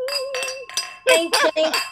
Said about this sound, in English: like we always do about this time, cheers. Cheers. Clink, clink, clink, clink, clink, clink,